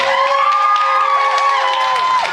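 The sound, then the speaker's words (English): Crowd cheering and whooping at a church service as a guest speaker is welcomed onto the stage, a loud sustained roar of voices with rising and falling shouts throughout. “And a standing ovation from your husband.”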